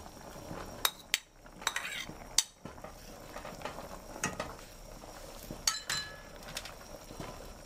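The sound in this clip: Mushrooms and meat being stirred in a pot: a spoon scrapes and clinks against the metal in many irregular taps over a soft, steady sizzle, all fairly faint.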